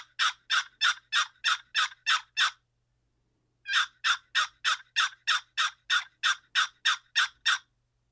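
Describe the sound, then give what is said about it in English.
Turkey yelps made on a turkey call: two loud, rhythmic series of sharp, raspy notes, a short run followed by a longer one after a brief pause, with no talk. “I'm going to do just what's called a plain yelp. It's going to be a little bit louder and a little bit more aggressive.”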